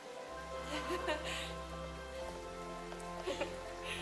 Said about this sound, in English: Sorry about the rain.